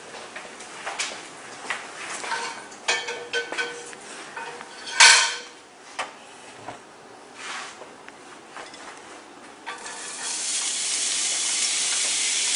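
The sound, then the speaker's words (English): Vegetables, including celery, frying in olive oil in a pan. Clinks of pots and cutlery come first, then a steady, bright hiss of sizzling fills the last few seconds. “And I actually already have some olive oil in my pan.”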